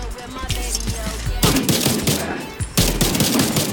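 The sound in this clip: Rapid video-game gunfire rattles out in dense, loud bursts of fast shots. Fresh volleys break in sharply near the middle and again toward the end.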